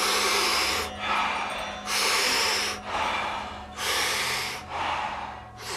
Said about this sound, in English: So big, deep inhale, soft exhale. We do it rhythmically, we do it together, and it sounds like this.